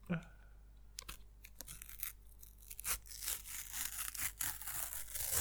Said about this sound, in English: Oh, that was a very tentative rip. It was very conservative. Because you've not really ripped much of the packet there.